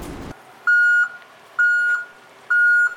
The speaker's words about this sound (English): Now what's happening? Hey, Brad, look over there. Craig is getting the dozer off the trailer.